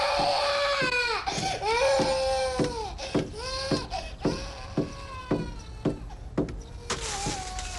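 A baby cries loudly in many repeated wailing bursts. Each cry bends up and then down in pitch, with short gasping breaths between them.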